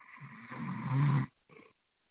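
A man snoring: a rough, rasping rumble that swells to a loud, buzzing peak, then breaks off. After a short pause comes a second, fainter and shorter snore.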